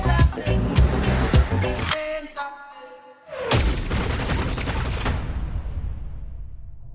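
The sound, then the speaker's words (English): Machine-gun fire: a loud, rapid burst of dense cracking shots lasting about two seconds, then a brief quieter gap before a heavy, roaring boom rises and slowly fades away. “Is that like a machine gun scene?”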